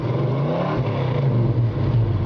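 A 1966 Mustang V8 engine revving, a deep, steady low rumble that stays loud through the short stretch, with no voices.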